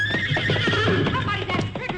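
A horse named Trigger neighs in a loud, high, wavering whinny that lasts the whole moment, over a steady low hum.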